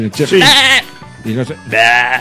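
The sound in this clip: A person imitates a goat, giving a few loud, wavering, nasal bleats with a quavering vocal tone, the longest at the start and the end, separated by brief pauses.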